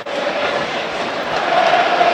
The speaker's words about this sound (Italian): sono circa 500 i tifosi dell'Udinese nel settore ospiti, che adesso stanno festeggiando, e non poco